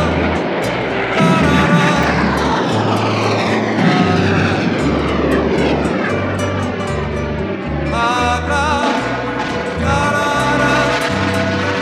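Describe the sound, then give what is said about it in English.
A helicopter's engine and rotor drone, loud and continuous for the whole stretch, with a heavy pulsing throb underneath and a tonal whine on top. “Do you still hear the helicopter sound?”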